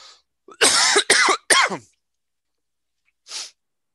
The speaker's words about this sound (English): Yeah, I purposely did that so you wouldn't have to hear me cough.